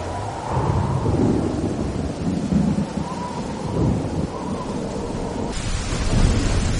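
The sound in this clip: Heavy rain falling with rolling thunder: a dense, steady hiss of rainfall over deep rumbles that swell and fade throughout, loud and continuous with no voices.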